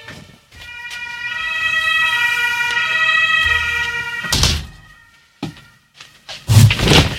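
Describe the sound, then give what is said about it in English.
Fire truck sirens wail steadily from a fire station right beside a radio studio, holding loud sustained tones, then cut out and give way to a few heavy thumps and knocks. “It is, in fact, quite unfortunate when you have a radio studio located directly next to the fire station. Because if there is a five-alarm fire, then all of the fire trucks roll out one after the other and blow their sirens.”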